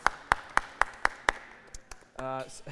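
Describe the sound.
Rhythmic hand clapping as a church audience applauds the volunteers who served that morning: six sharp, evenly spaced claps, then a few fainter ones, with a voice starting near the end.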